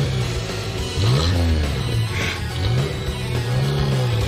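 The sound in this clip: Car engine driving away, a rough revving note that rises and falls in repeated waves over a steady, loud rumble.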